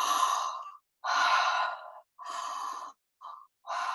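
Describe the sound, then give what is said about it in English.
Slow, deep human breaths, airy and breathy, come in several long drawn-out pulls separated by brief silent pauses, with one shorter breath near the end. “As you breathe, just welcome it all in and know it's safe for you to breathe deeply.”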